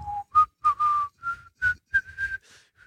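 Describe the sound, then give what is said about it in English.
A man whistles a slow, melodic tune as in a beer advert, clear pure notes in short phrases separated by brief gaps, the pitch stepping gradually higher, heard alone. “you know you have the guy whistling”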